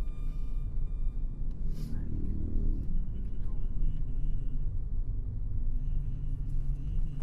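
A car stuck in a traffic jam on the road beneath a flyover, giving a steady, deep engine rumble and road noise that stays even and fairly loud throughout, with no clear acceleration.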